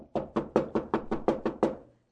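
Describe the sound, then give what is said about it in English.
Nine heavy, evenly spaced knocks pound on the door of a poor little pawnshop among East Side tenements. They are loud and steady, then stop. “another sleeper is aroused by a pounding on the door this time. And Cyrus Allen, a poor little pawnbroker, goes to the door of his shop.”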